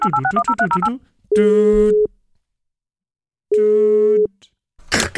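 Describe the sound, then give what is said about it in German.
Touch-tone telephone dialing opens with a rapid run of short keypad beeps. Two long, steady electronic tones follow, separated by a silent gap, and a brief noisy burst comes at the end. “Ich, ich, ich glaube, ich muss, ich, ich, ich muss Herrn Lex anrufen.”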